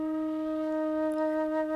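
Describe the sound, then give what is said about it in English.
A standard flute, about 25 inches long, holds a single steady, clear note for under two seconds, soft and unaccompanied. “For example, here is a standard flute, which measures 25 inches or 65 centimeters.”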